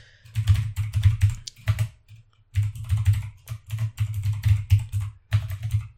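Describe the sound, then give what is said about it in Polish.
Someone types an email address and password on a computer keyboard. Quick runs of clicking keystrokes are broken by short pauses, with no talking. “I teraz tak, wpisujecie tutaj swojego maila i hasło do niego.”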